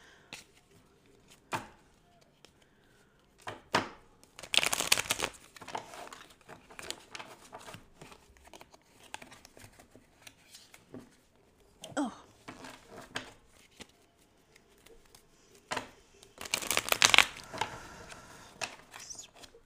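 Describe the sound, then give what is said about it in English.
Cards are shuffled before a card reading, faint and intimate: two denser riffling bursts stand out amid scattered light taps and rustles of handling. “what we do is we pull cards for each day and then I will read the energy”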